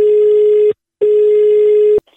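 A telephone ring tone sounds on the line for a prank call: two steady electronic tones, the first shorter, then a brief silence and a longer second tone, followed by a faint click.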